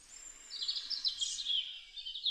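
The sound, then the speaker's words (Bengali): A cuckoo calls outside a window in the morning: a high, drawn-out whistling call, fairly faint, over a low, steady background hum. “সকালে জানালার সামনে এক কোকিলের অনর্গল ডাকে ঘুম ভাঙে নন্দিনীর”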